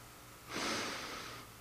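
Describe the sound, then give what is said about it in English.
A single deep inhale through the nose, a soft breathy sniff lasting about a second, heard alone against a quiet background. “As we give to the work of God, the Lord inhales deeply.”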